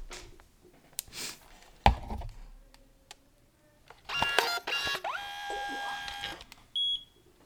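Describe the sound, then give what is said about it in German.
An instant print camera being switched on gives a few sharp clicks, then a sustained buzzing electronic tone for about two seconds. A short, high beep sounds near the end. “ich habe so eine geile Druckekamera. Die machen wir mal kurz live an.”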